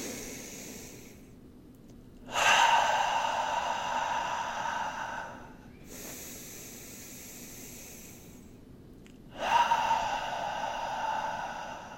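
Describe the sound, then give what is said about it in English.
Three long, deep breaths are drawn in through the nose during a guided group breathing exercise, each a soft, airy hiss rising and then fading, with quiet pauses between them. “So we'll take three breaths together. Inhale through the nose.”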